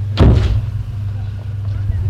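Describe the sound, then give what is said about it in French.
A door is shut with one heavy thud right at the start. A low, steady vehicle engine hum continues under it and afterwards. “Et elle ferme sa porte.”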